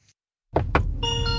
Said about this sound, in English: Here we are. It plays a little tune every time you get in. It's very cheery. Very cheery. It's a little welcome to your car.